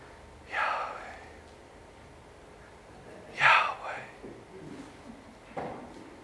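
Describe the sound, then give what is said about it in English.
Audible breathing in and out, heard as three soft, breathy bursts spread over several seconds, with the middle one loudest and faint hiss between them. “some have said that the name of God, Yahweh, is breathed out in and out every time a person takes a breath”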